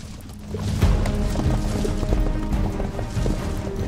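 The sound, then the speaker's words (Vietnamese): A war horse charges into battle, its rapid hoofbeats making loud, low thudding clip-clops that run on without pause. “chụp lấy đao mới được dâng lên, sau đó thúc ngựa phóng thẳng ra ngoài, trực chỉ lao đến chỗ Lý Thương Vi.”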